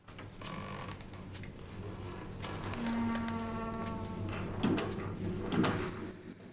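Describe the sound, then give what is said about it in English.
Creaking of an upper attic door swinging against wooden shelves, a low strained groan that stretches through the middle, followed by a couple of soft knocks. “The upper attic door swings but remains open.”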